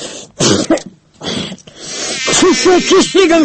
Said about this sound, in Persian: اوی بابا این مگس باز پیدا شد